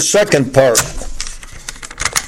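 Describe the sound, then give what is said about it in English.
A cassette tape is turned over in a tape recorder, giving a series of small plastic clicks and clatters after a brief stretch of a man speaking. “Let me turn this tape over.”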